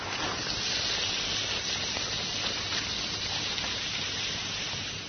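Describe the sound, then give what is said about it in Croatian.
Steady hissing from a cup dissolving in acetone nail polish remover, a continuous, even, fizzing hiss that holds at the same level throughout with no voices. “Šušti i pritom dolazi do rastvaranja čaše. Čaša je bukvalno nestala.”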